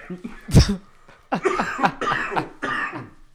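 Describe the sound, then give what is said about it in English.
A single sharp, loud cough from someone choking on a little spit, followed by a voice speaking. “excuse me. Choked on a little bit of spit there.”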